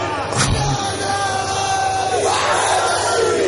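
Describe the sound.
A crowd roars its answer to the Nara-e-Haidari slogan chant. The loud mass of shouting voices holds steady without a break.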